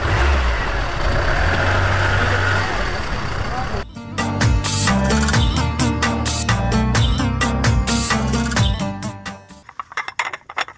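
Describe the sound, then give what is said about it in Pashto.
Car engine running and revving, a car said to lack power, with a loud, rough roar filling the first few seconds before giving way to a busier, layered sound. “راځه چې موټر ته وخیژو درځه دا موټر دم ډیر د ما بس نه لري”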